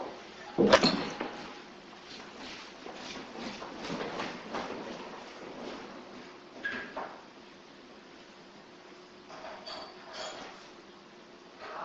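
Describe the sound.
A door being opened for workers: a sharp mechanical clack near the start, then a stretch of creaking, rattling and scraping from the latch and moving door, moderately loud and uneven, with a few smaller knocks later and no talk.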